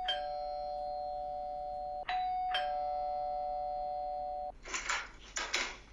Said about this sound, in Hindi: अचानक बाहर घंटी बजंदी